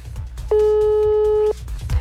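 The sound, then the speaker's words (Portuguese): A telephone ringback tone on an outgoing call that goes unanswered: one steady, clear tone lasting about a second over a low background rumble. “Não atendeu, telefone final 1082.”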